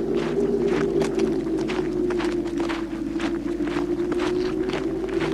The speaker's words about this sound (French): Est obligé de marcher dans cette boue qui colle.